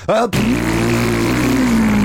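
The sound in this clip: A voice imitates a motorcycle engine revving and speeding off at a green light: a short, high buzzing burst, then a long, steady, nasal engine drone that holds its pitch and dips slightly near the end, loud and alone.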